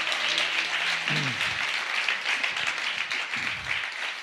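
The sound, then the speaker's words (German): Applause during a church worship service for the keyboard player, dense steady clapping throughout, with a low sustained tone fading out in the first second. “Gib dir mal einen Applaus, einen richtigen hier.”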